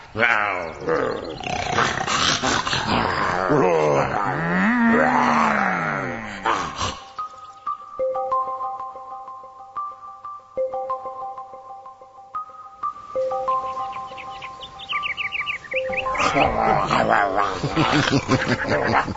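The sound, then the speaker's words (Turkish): A lion and an ox fight, with roaring and growling voiced by people imitating the animals, then a stretch of steady sustained tones before the rough, loud roaring resumes. “Görüyor musun Kelile? Aslanla öküzü nasıl birbirine düşürdüm ama?”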